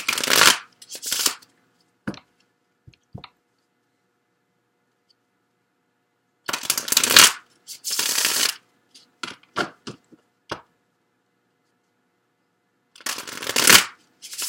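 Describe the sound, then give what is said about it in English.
Tarot cards being shuffled in a few separate bursts of crisp riffling and flicking, with scattered soft card taps and long quiet gaps between them. “let me get a card from the Money Tarot for you, Cancer. Then I'll get some additional cards.”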